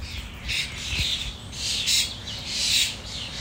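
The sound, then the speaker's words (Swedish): A flock of starlings filling a tree gives repeated harsh squawks and chattering calls in overlapping bursts over a steady background hiss. “Det är intensiva fåglar detta. Det är det. En klar favoritfågel, staren. Okej. Hela trädet var fullt av starar när detta hände.”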